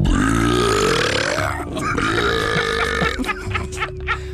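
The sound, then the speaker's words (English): A loud, drawn-out burp of swallowed air blasts out like a trumpet, deep and buzzy, wavering in pitch for about three seconds before breaking into rougher, choppier bursts. “This guy can swallow a bunch of air and burp it back out at you in a disgusting trumpet blast.”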